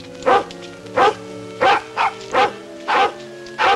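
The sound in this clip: Dog barking at night in the woods as two men approach: seven sharp, evenly spaced barks of similar loudness, over a steady low background drone.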